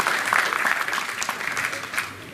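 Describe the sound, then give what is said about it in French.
An audience at an awards ceremony applauds the committee members with a steady, fairly loud patter of many hands clapping that eases slightly toward the end. “je vais vous demander d'applaudir chaque personne du comité qui a travaillé si dur pour que les DP3 voient le jour.”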